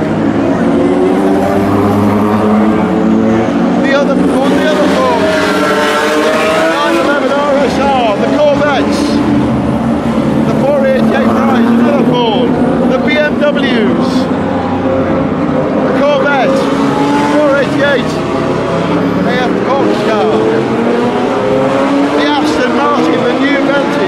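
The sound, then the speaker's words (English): Ford GT race cars of the GT Pro class roar past on a racing circuit. Their loud engines repeatedly swell and fade as many cars sweep by in a dense, continuous stream of passes. “Here come the GT Pros. The Fords.”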